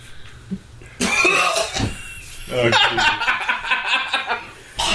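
Harsh coughing from a person inhaling from a vape. A few rough coughs burst out, mixed with snickering laughter and other vocal noises. The sounds are uneven and fairly loud.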